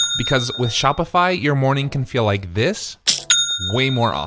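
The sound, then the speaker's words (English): A bright bell-like chime, signalling a sale on an online store, rings twice under a talking voice, once at the start and again near the end. “That's the sound of a sale being made on your new Shopify store.”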